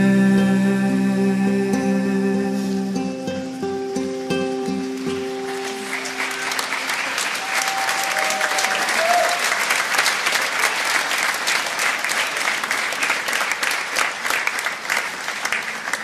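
A church audience applauds in praise of Jesus. Dense, sustained clapping swells in after sustained music tones at the start and continues steadily and loudly to the end.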